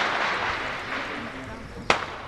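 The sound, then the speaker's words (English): Mortar shell exploding about a block and a half away in a combat zone: one sudden sharp bang with a brief rumbling tail, rising out of steady background noise and muffled voices. “Our interpreter was talking when a mortar shell struck.”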